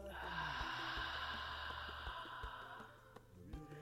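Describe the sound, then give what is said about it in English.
A deep breath taken during a guided gratitude meditation: a soft, steady airy rush that lasts the whole stretch and fades slightly, over a sustained low musical drone. “Just take a deep breath into that gratitude for all aspects of self. And then exhale out.”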